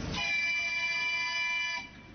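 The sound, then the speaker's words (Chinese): Whistle of a small children's park train in Harbin as it pulls away from the station platform: one sustained, steady-pitched tone lasting over a second and a half, then cutting off, leaving a low rumble. “汽笛又一次鸣响，小火车缓缓驶出站台。”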